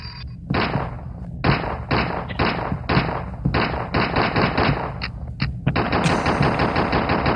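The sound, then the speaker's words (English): Gunfire in a police video game: rapid bursts of automatic shots, many loud cracks in quick succession over a constant noisy backdrop, with no voices. “Okay, Officer O'Malley, put the gun down.”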